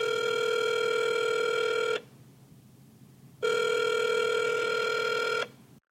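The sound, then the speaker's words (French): A telephone ringing tone while a call is being placed: two long, buzzy electronic rings of about two seconds each, separated by a quiet pause, steady in pitch and with no voices. “On l'appelle.”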